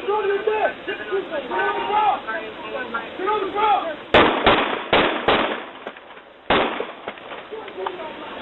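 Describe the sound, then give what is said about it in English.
Police gunfire caught on dash cams in Miami Gardens: people talk over a radio-like background, then a rapid burst of several sharp, loud shots, a pause, and one more crack. “The other sound is from police dash cams in Miami Gardens, where police officers ordered a mentally ill black man to get on the ground before white officers opened fire in February and killed 25-year-old Laval Hall.”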